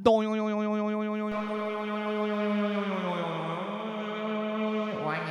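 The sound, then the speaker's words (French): Twangy boing of a clothesline plucked like a string being tuned: a resonant, buzzy tone rings out and wavers slightly in pitch as it sustains, and the line is plucked again a couple of times. “C'est très simple, on accorde notre corde à linge. Comme la société est mal accordée, au moins la corde à linge, elle va filer au bon diapason.”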